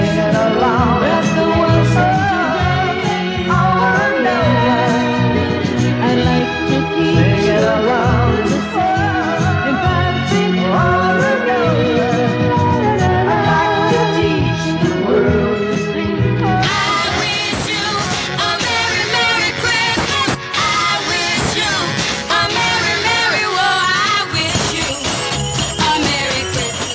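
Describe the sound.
A pop song plays loud and continuous with a full band arrangement, its texture brightening partway through.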